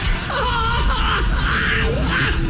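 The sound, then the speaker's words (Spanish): A woman cries hard in loud, wavering, wailing sobs that keep going throughout, rising and falling in pitch. “Y llora bien feo.”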